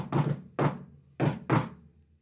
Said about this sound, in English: And now I'm going to walk up and go, knock, knock, knock. I don't hit the button. I knock.